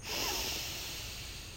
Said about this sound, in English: So let's take 3 deep breaths. We'll breathe in deeply through the nose with a loud, emphatic exhale. So let's do it. Deep breath in